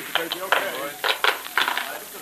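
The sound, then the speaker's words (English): A lid is pried off a mummy case in a radio drama, making many short, sharp clattering and scraping knocks in uneven clusters. “All right, boys, pry off that lid.”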